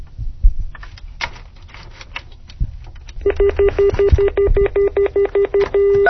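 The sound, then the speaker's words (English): Dialing a number on a speakerphone from a home line: a few handling knocks, then a steady, clear telephone tone that breaks into a quick run of short pulses near the end. “We'll bring this over to the speakerphone again and dial the number.”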